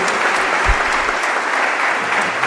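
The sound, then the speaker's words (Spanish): A church audience at a diaconal ordination applauds in a dense, even patter of clapping that continues steadily through the whole clip. “Un aplauso al carisma de Marta y María, ¿eh?”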